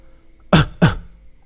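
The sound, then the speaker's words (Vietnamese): A man gives two short, dry coughs in quick succession, each a sharp burst, with silence around them. “Diệp Thiên xấu hổ ho khan một tiếng nói”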